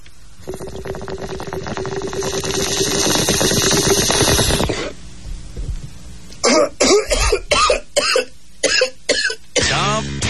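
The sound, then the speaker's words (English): A bong hit and coughing: a rising, gurgling bubbling runs for about four seconds, then after a brief pause comes a rapid string of harsh, loud coughs. “Give me a big bong hit, please. Here you go”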